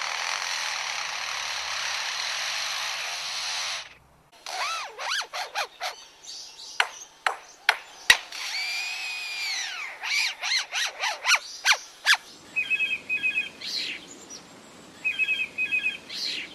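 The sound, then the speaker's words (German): A blackbird and a lyrebird mimic a phone ringtone and a cordless drill. First comes a steady rasping whir, then rapid whistled notes and sharp clicks, then short repeated electronic-sounding tone bursts. “Und welchen Sinn ergibt der Klingelton aus der Amselkehle nun oder der Akkuschrauber-Sound bei dem Leierschwanz?”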